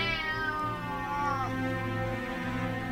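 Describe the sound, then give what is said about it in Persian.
A cat meows in drawn-out, loud, tonal calls with a yowling, caterwaul-like quality; the sustained cries run through the whole stretch without pause, and one call slides downward in pitch partway through. “نازی جلو می دوید، میو میو می کرد، خودش را به من می مالید.”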